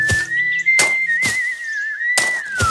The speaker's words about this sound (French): l'ora fit ce qu'il devait faire et travailla en sifflotant.